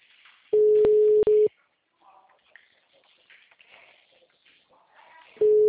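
Telephone ringback tone while a call is being placed, a steady mid-pitched beep about one second long with a brief dropout, then a pause of several seconds with faint background sounds before the tone sounds again.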